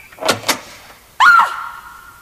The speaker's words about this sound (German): Und dann dauerte es nicht lange, als sich zuerst die Türe im ersten Stock öffnete.